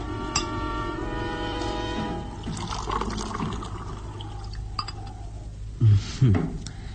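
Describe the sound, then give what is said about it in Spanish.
A drink poured into a glass in a radio drama scene inside a rustic hut: a steady liquid trickle with a few glassy clinks near the end. “quien mira estúpidamente al joven Lucas Van Doren llenar por enésima vez el vaso.”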